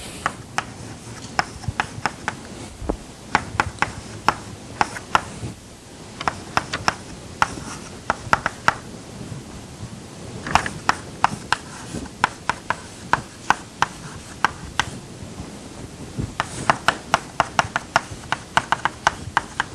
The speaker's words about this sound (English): I am only writing down the components which are non-zero.